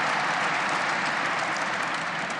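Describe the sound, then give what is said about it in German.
Applause from the audience at a shareholders' meeting: a steady, dense wash of clapping that holds an even, fairly loud level from start to finish, with no voices standing out. “wir freuen uns über den Applaus für das abgelaufene Geschäftsjahr.”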